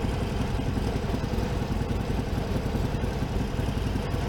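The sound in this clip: A motorcycle engine idling in neutral, a loud, continuous low rumble that holds steady without revving from start to finish.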